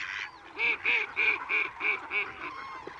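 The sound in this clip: Mallard ducks call beside a reed-fringed lagoon, a run of about six loud, nasal quacks in quick, even rhythm, rising out of a quieter background and then trailing off.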